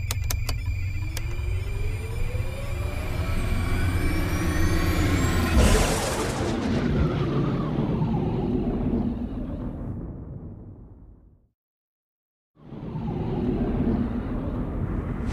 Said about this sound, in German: Triebwerke zünden!